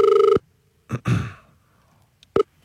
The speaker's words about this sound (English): We're being told we can call them now. They are apparently available.